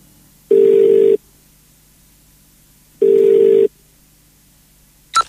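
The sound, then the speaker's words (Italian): A telephone answering machine: two steady ringing tones, each under a second long, are spaced by a pause, and a brief high beep follows at the end. “Segreteria telefonica.”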